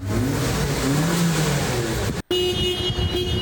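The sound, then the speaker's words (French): A car engine revs at a vehicle inspection centre where hundreds of vehicles are tested daily. A strong engine drone breaks off briefly, then a steadier hum with a thin high whine continues. “Nous sommes à Plaine-Leuzon dans un centre de contrôle technique où plus de 300 véhicules passent chaque jour leur fitness.”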